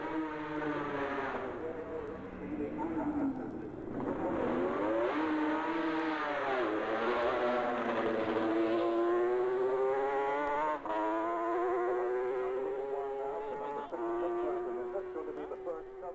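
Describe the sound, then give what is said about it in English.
A Kawasaki racing motorcycle passes at speed at Governor's Bridge, its loud, continuous high-revving engine note dipping and then climbing steadily in pitch over about sixteen seconds. “Now, hear the Kawasaki at Governor's Bridge.”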